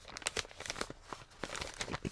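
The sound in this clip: A paper envelope is torn open in a quick series of soft, irregular crinkling and ripping bursts, faint and uneven in rhythm, with no voices.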